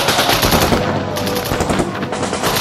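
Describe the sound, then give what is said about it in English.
Dense, loud gunfire from a WWII night raid in Normandy, with troops on high ground fighting approaching German soldiers. Rapid overlapping shots and bursts keep a continuous, rattling rhythm throughout, with no voices. “a ferocious firefight broke out”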